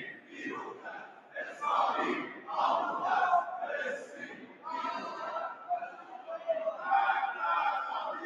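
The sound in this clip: Iranian parliament members chant "Death to Israel" in unison, loud rhythmic bursts of many voices repeating the slogan again and again.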